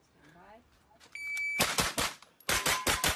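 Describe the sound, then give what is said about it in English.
Rapid gunfire as Keanu Reeves fires multiple weapons at a firing range: two loud bursts of quick, sharp shots in close succession, cracking hard and then cutting off. “Okay, this is Keanu Reeves firing multiple weapons at the firing range.”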